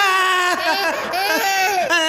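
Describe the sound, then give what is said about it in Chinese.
A baby crying, with continuous wailing sobs whose pitch bends up and down from one breath to the next, loud and unbroken through the whole stretch. “不哭，宝贝儿不哭，一会儿你再哭”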